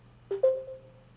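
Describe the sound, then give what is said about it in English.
Two short electronic tones sound as someone joins a conference call by phone, the second slightly higher and held a little longer before fading, heard alone without talk. “Somebody just joined by phone.”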